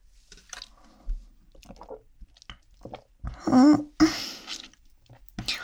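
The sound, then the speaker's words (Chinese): Someone tastes a drink brewed by the shop, making a few soft, wet slurping and swallowing sounds separated by quiet pauses. A brief voice is heard among them. “店家自己泡的吗？你要不要喝？不用，那我喝喝看。”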